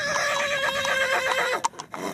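A stallion at a national stallion selection neighs: a long, loud, wavering whinny with a shaking pitch that holds steady and then breaks off, with no voices over it.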